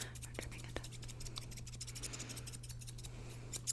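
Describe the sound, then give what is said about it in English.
Scissors snip close to a microphone during an ASMR haircut roleplay, trimming imaginary hair. Many crisp, light cuts in an uneven rhythm sit over a steady low hum at a soft level. “Now I'm going to cut your hair as if you were the microphone. This is your head, and your hair's over here, and we're trimming it.”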